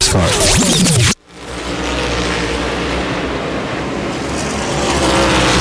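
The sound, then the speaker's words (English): Race cars roar in the Cookout 400 at Richmond Raceway. After a loud opening sound cuts off abruptly, a dense, continuous roar of engines settles in and holds steady for several seconds. “15 laps to go in the Cookout 400 here at Richmond Raceway. Joey Logano cannot shake Chase Briscoe in this ongoing race for the win.”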